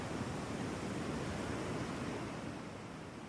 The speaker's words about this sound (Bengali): সমুদ্রের আওয়াজ। সমুদ্রের আওয়াজ আমার কাছে অনেক প্রিয়।